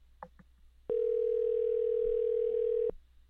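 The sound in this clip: A steady telephone dial tone plays as a call is placed. It is one loud, continuous, unbroken tone of about two seconds that starts and stops abruptly, after a brief faint voice.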